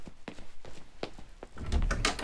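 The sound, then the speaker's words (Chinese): Knocks on a door: a few dull, separate thuds spaced about a third of a second apart, followed by a stretch of louder, busier noise. “有人敲门，我去开门啊。”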